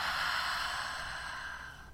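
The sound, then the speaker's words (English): A gentle, airy breath during a guided heart-breathing relaxation exercise. It is a soft, steady rush of air that holds for about a second and a half, then slowly fades away. “Gentle breath in. And out.”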